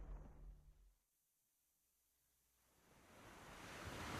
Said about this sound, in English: At dawn, surf gently laps a beach.